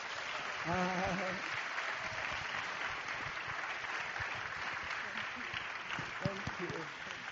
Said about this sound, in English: 那我们现在用最热烈的掌声来欢迎他在我们当中来分享他心中的负担。